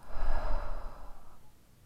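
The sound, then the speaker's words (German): One deep breath exhaled fully through an open mouth during a relaxation breathing exercise: a soft, breathy rush of air that swells quickly and then fades gradually to near silence. “Tief durch die Nase einatmen, die Luft anhalten und vollständig über den geöffneten Mund ausatmen.”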